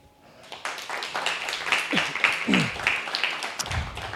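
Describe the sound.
An audience gives warm applause to welcome a featured poetry reader at a reading event. Dense clapping swells up after a quiet start and continues throughout, with a few brief voices rising through it.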